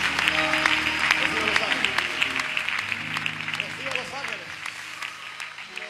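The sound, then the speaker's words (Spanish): Church audience applauding: crisp, distinct claps over sustained musical tones, loud at first and easing off slightly over the six seconds. “Un aplauso a la sangre de Dios.”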